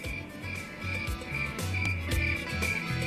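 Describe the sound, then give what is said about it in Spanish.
Cricket chirping, a steady, high, pulsing trill that repeats throughout at an even, moderate loudness. “Esa, el grillito, ahí estaba.”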